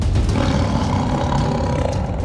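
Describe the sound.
A saber-toothed tiger's thunderous growl echoes through a hall as a loud, deep, rumbling roar that holds steady and unbroken for the whole stretch.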